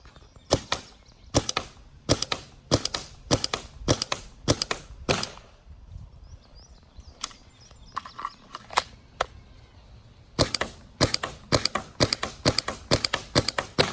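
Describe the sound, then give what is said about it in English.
Gunshots from a gun fired from a loaded magazine, sighted through goggles and tested for field games: two bursts of sharp, loud cracks with a few scattered shots in the pause between them. “Okay, magazine loaded. I'm going to give this a shot.”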